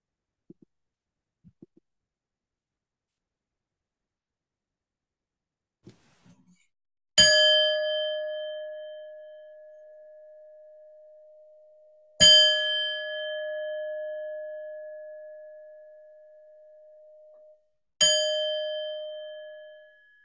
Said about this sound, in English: When I ring the bells, we will come out of this meditation.